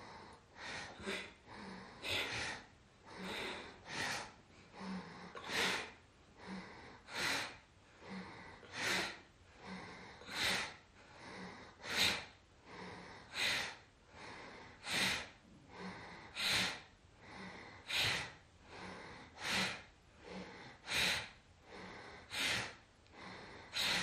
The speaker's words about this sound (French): le souffle de Bhastrika, inspire, expire dans l'axe.